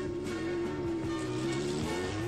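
A police officer's motorcycle speeds down a path toward a barn, its engine a faint, steady drone holding a nearly constant pitch throughout.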